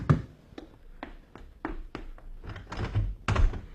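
Knuckles rap on a door in a series of sharp, hollow knocks, spaced unevenly at first and then coming faster and louder toward the end.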